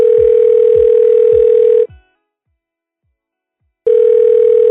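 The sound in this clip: A telephone ringback tone sounds while someone is being called: a loud, steady single-pitched tone that stops, leaves about two seconds of silence, then starts again.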